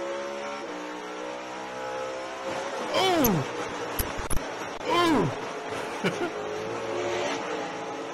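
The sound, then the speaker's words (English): Race car engines roaring during a race: a steady engine drone with two loud pass-bys, each whining high and then sweeping down in pitch, plus a few short sharp bursts between them. “You heard racing live on our channel today.”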